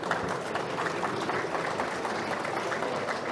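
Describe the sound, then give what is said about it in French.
Audience applause for three speakers after a presentation on civil engineering and carbon tools: a dense, steady patter of clapping that holds at an even level throughout. “Alors on peut peut-être applaudir nos trois intervenants”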